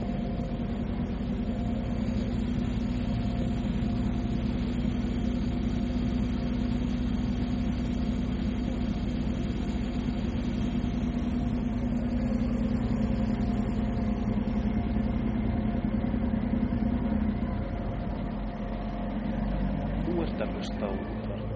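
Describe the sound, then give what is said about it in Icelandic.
The engine of the Hrísey ferry Sævar drones as the boat leaves the dock, a steady, low, continuous hum that holds for about twenty seconds and eases slightly near the end. “Nú heyrum við að ferjan glöð af stað á bryggju. Hlustum á hljóðið í vélinni.”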